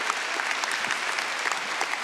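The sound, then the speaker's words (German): Studio audience applause on a television talk show: a dense, even roar of many hands clapping at steady loudness throughout, with no voices standing out. “Riesen Applaus für euch.”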